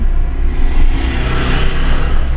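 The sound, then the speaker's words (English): A car drives along the tar road between Skukuza and Lower Sabie in Kruger National Park, giving a loud, continuous rumble of engine and tyre noise. It stays steady and even throughout, with no talking. “Okay, so we're setting off on the road. It's a tar road that takes us all the way from Skukuza to Lower Sabie.”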